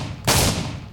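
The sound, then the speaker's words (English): A single loud shotgun blast from a Spas 12 shotgun fired in a video game: a sharp, heavy boom over a low hum, followed by a decaying rumbling tail. “The Spas 12 is a private weapon, which means you can only get it if your title is private. It has 9 shells, and it sounds like this.”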